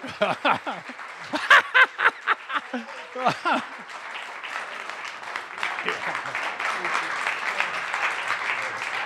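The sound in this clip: An audience welcomes two guests with applause, opening with a few whoops and cheers over the clapping before the applause settles into a steady, sustained patter.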